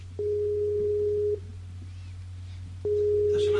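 Internet call ringing tone: a steady, level tone sounds for about a second, breaks off, then returns and runs to the end, over a constant low hum.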